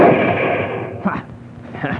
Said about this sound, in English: Good shot